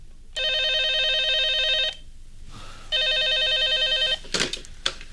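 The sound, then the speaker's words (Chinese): A telephone rings with a bright electronic trill in two long bursts separated by a short pause. After the ringing stops, a few brief faint noises follow. “电话铃又响”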